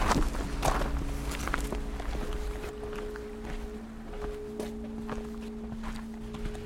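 Footsteps climb a path up to the Chauvet cave in a steady, uneven run of soft scuffing steps, fairly quiet, with a constant low hum beneath.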